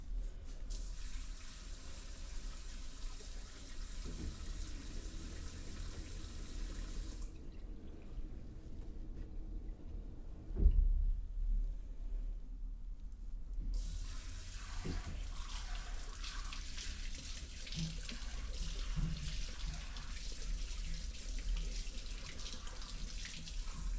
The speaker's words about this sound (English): So now I'm just going to rinse that conditioner. Like to follow me back and we can brush your hair again, okay? Alright, so let's just rinse that out.